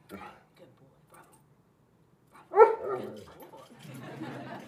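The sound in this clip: A dog gives one loud, strong bark in the middle of a short clip, with quieter sounds and people talking before and after it.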